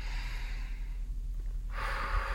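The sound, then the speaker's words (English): A deep breath taken during a guided relaxation exercise, a soft airy rush drawn in and then released more strongly, quiet and without talk. “Let's take a nice deep breath again”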